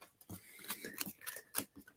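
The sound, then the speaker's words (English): Playing cards dropped and being gathered back up, giving a few soft, brief papery taps and rustles spread unevenly across the moment, faint and with no voices. “As soon as I play 52 card pickup and pick up these cards that I just dropped.”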